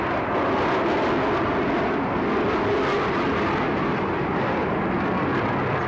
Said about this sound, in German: Nur die Turbinengeräusche erinnern uns noch daran, dass die Staffel jetzt irgendwo über uns ist.